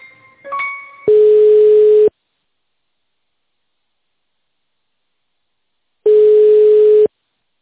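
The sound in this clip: Telephone line tones heard while a hospital receptionist transfers a caller to a contract manager: after a few brief beeps, two long, steady, buzzing tones play alone, each about a second, separated by roughly four seconds of silence.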